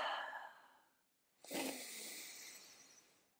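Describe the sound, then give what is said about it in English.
A deep breath, a long airy rush that fades out, then after a brief pause another sustained breathy sweep of air, soft and alone without talk. “And so we put down our problem for a minute. We take a deep breath.”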